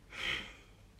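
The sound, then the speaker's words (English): A deep exhalation during a yoga twist, Parivrtta Trikonasana (revolved triangle pose): one soft, breathy exhale that swells quickly, then thins out. It is faint and heard alone. “Really work the turn like you did in the seated poses. Deeper exhalation.”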